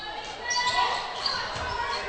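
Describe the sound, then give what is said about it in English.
A basketball is dribbled on the court during a Waynesburg game, steady bouncing thumps running under play-by-play commentary. “Blair dribbles to the top of the key, puts up a three.”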